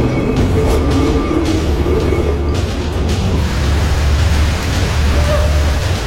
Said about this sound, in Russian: Поезд медленно идет вперед.